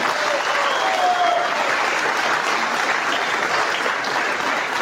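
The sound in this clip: Applause from a crowd at a political rally: dense, steady clapping that stays loud and even from start to finish without a break.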